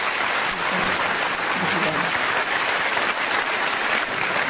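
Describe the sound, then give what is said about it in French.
Standing ovation for seven-time Olympic champion gymnast Věra Čáslavská at a public appearance: dense, sustained clapping from a large audience that holds steady and loud throughout, with a voice faintly beneath it early on. “c'est une ovation debout qui lui a été réservée.”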